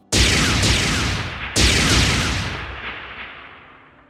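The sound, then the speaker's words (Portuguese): Two heavy booming explosions from a spaceship hit by a shot in a video game, each a sudden loud blast followed by a long rumbling decay. “Você destrói um deles ele explode. Quando o tiro bate nele que ele explode,”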